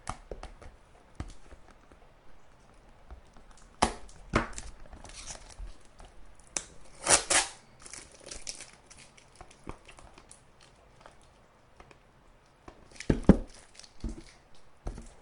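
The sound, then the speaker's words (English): Packing tape is torn and peeled off a box that was heavily covered in it, giving irregular faint crinkles and crackles broken by a few louder ripping bursts, with no talking. “Watch, I'll get through all this tape and he'll have sent me a box of tape.”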